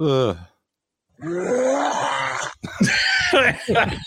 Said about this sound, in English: At first I thought that was a bear. It's a dog.